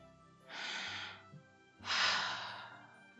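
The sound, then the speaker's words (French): A woman breathes deeply by an open bedroom window: two long, airy breaths, each swelling and fading, heard alone without talk. “Elle monte dans sa chambre, elle ouvre la fenêtre, la vue est superbe. Elle respire.”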